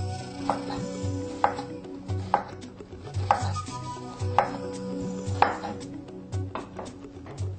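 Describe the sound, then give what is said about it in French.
Onions being chopped into small pieces, with many sharp, crisp knife strikes at an uneven but steady pace over a low background hum. “Alors maintenant, nous allons découper des oignons, également en tout petits morceaux.”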